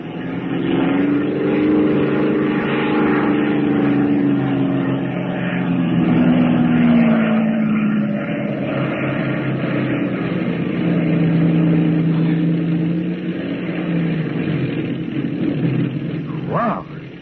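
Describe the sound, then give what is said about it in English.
A small aircraft lands on a road with its engine droning steadily and loudly for the whole stretch, a continuous engine tone without a break. “I'm landing. Well, you told me to set you down, and you're down, aren't you?”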